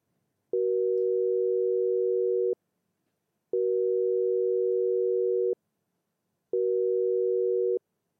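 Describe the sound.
Telephone busy signal repeating while a call is redialed: three long, steady mid-pitched tones separated by short silences, loud and clear with no voices.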